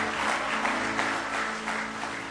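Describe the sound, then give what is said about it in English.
Church audience clapping hands in praise during an evening service: a steady, even roll of many hands, with low sustained tones beneath it. “Give him a real good hand clap of praise tonight if you love him with all your heart.”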